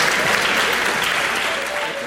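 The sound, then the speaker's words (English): An audience applauds the members of a panel at the close of a discussion: thick, continuous clapping that holds at an even, loud level. “Please give these men a round of applause for the work that they do, for their courage, for their dedication.”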